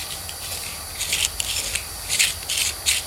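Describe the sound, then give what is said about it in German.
A carpet knife cuts through material in a few short, raspy scraping strokes. The strokes are soft and hissy over a quiet background. “Ein Tischlermesser. Ein Teppichmesser meine ich natürlich.”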